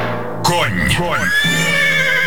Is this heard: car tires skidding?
no